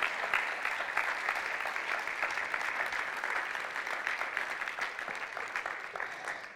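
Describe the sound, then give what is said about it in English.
Sustained applause from an audience honoring the sisters who shared, a dense crackle of clapping that stays steady and loud from start to finish. “Give it up for our sisters.”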